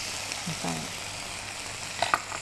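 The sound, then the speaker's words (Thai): Noodles sizzle in a pan as they are stir-fried with straw mushrooms, soy sauce and oyster sauce. The frying hiss is steady and moderately quiet, with a few sharp clinks of the utensil near the end. “นะคะเราผัดคลุกเคล้าให้ทั่วพอส่วนผสมเข้ากันกับเส้นดีแล้วนะคะ”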